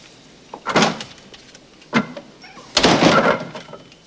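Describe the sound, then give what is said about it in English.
A door being shut, heard as a few separate bursts: an opening scrape and clatter, a sharp knock in the middle, then a longer rattling thud at the end. “shuts the door again.”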